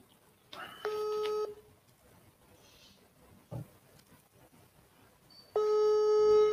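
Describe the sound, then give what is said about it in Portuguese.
Telephone ringback tone on a long-distance call to area code 47 in Paraná, Brazil: two long buzzy tones separated by a quiet gap, with a brief click between them. “Vou ligar aqui. DDD 47. Vamos ver se atende.”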